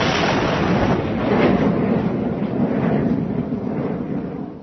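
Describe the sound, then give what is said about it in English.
Comedy sound effect of a guided missile being fired: a loud, sustained roaring rush that holds steady for several seconds and eases slightly toward the end. “Go to the launching control, yep. Point the whole of this guided nephew to Moscow, and off we go. Fire!”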